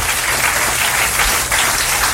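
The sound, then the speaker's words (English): A round of applause from many clapping hands forms a dense, steady wash of sound that holds at an even, fairly loud level for about two seconds, with only a brief dip near the end. “Going to give you a round of applause if you're up and about at the moment.”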